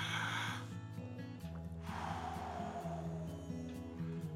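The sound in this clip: Deep breathing during a guided prayerful breathing moment, a long soft breathy rush rising out of steady, low instrumental music that continues throughout.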